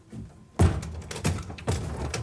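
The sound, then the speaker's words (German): Quiet thumps and knocks as a door is opened carefully in the dark: one heavy thud, then a few softer bumps and rustles, with no voices. “Mach die Tür doch am Ende auf.”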